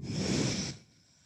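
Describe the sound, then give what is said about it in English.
Breathing out during a low push-up in a yoga flow: a strong, airy exhale lasting under a second, then a sudden drop into near quiet. “Then hands to your mat. Low push up, breathe out.”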